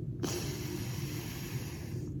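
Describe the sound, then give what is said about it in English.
Airy breath through one nostril during alternate nostril breathing, a single long steady hiss lasting about two seconds over a low constant hum. “breathe in again, this is called alternate nostril breathing.”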